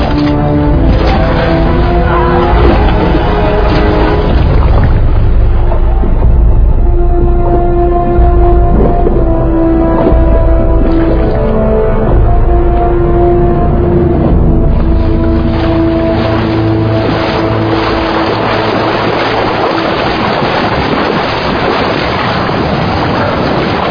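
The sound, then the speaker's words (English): A sailing ship sails away on the sea with a loud, continuous rush of wind and surging water. “Second time I've had to watch that man sail away with my ship.”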